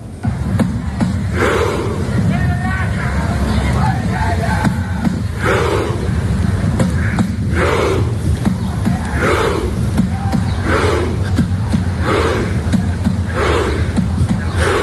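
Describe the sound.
Norwegian football fans chant through the streets of Miami. Rhythmic shouts rise from the crowd in regular repeated bursts over a constant murmur of voices.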